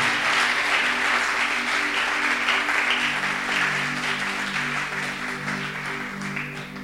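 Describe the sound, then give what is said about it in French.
A church audience applauds to acclaim the Lord at a French-language service. Steady, dense clapping lasts about seven seconds over sustained low musical tones and fades slightly toward the end. “Est-ce qu'on peut acclamer le Seigneur Alléluia.”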